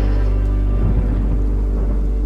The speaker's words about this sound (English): Yeah, watch out, 'cause the storm is coming through.